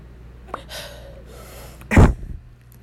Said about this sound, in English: I have the hiccups. Let me hold my breath for a second.